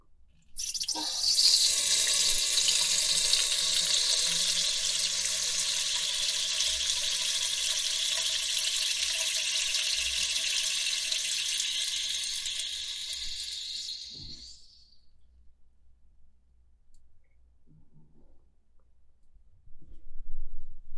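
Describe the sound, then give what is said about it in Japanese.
A person urinating: a strong, steady hissing stream of liquid runs for about fourteen seconds, then tapers off and stops, leaving near silence before a brief noise at the very end. “もうおしっこ出ちゃうから、聞いてください。”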